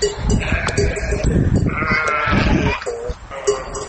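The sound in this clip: Sheep bleating from a flock of 200 sheep kept by a herder in Montenegro. Several loud, overlapping bleats follow one another without pause, with wavering nasal calls at varied pitches.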